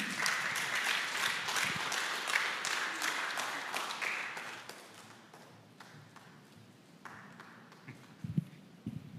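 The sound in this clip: A church audience claps to welcome a guest preacher on Father's Day. The applause starts strong and fades over about five seconds, then a quieter stretch follows with a few soft thumps near the end.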